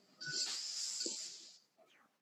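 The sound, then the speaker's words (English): A deep breath drawn in during a guided breathing exercise makes one long, faint, airy hiss lasting about a second and a half, followed by near silence and a brief soft sound at the end. “Okay, so take a nice deep breath in.”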